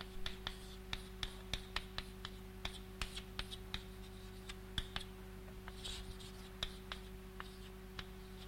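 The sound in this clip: Writing on a board during a mathematics lecture: many quiet, irregular taps and short scratches over a steady low electrical hum.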